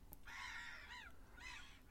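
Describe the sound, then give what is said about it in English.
Seagulls calling, two drawn-out, harsh, wavering cries with a short gap between them, faint over a low, steady background rumble. “Seagulls are out. Shitting everywhere.”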